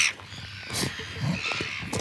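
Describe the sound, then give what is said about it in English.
Harsh calls of red-billed gulls at New Zealand's largest breeding colony, with scattered squawks over a steady, noisy background. “Gulls everywhere already, but you're saying it's going to get a lot busier.”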